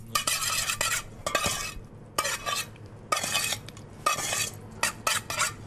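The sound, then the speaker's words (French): Langoustine being stirred and mixed with Madagascar pepper and fleur de sel, with several bursts of scraping, clinking utensil movement separated by short pauses and no talk. “j'ai choisi pour l'assaisonner donc un poivre de Madagascar, mais on peut utiliser tout à fait un poivre normal. C'est que j'aime beaucoup le poivre de Madagascar parce qu'il est assez fleuri. Petite pointe de fleur de sel, après on vient mélanger.”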